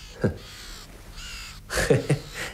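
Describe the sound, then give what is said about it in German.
Two ravens cawing: a few harsh, hoarse caws, one early call and then a closer-spaced pair after a pause. No voices are heard. “Sehen Sie? Die beiden Raben da.”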